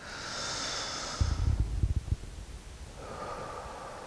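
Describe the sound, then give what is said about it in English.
A deep breath drawn in together by an audience at a morning worship service: a single soft, sniff-like intake lasting about a second, set against a steady low hum. “Now, would you join me in taking a deep breath?”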